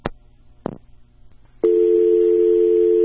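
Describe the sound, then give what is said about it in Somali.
Telephone tone on an unanswered call: two sharp clicks, then a loud, steady, unbroken tone that holds to the end. “isla waqtiga uu telefoonkaasi go-ay waxaan mar kale ku celiyey taliya Shiine Mayow hase yeeshee kama uusan jawaabin wicitaanka telefoonka”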